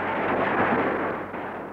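A mine from one's own side explodes in the ground during a wartime cavalry charge, a broad, heavy roar that holds steady before slowly fading toward the end.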